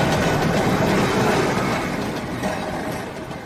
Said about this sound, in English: A tram passes on a busy street.